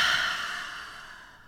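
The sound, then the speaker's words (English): A deep breath is exhaled during a guided breathing exercise, a long, airy rush of breath that gradually fades over about a second and a half, with no talking. “take that deep breath in. And keep inhaling, really fill up those lungs and take up space. And exhale.”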